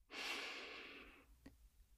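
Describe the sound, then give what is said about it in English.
A single long, soft breath of airy hiss that slowly fades, followed by a faint click and near silence. “Let's take a breath in and out.”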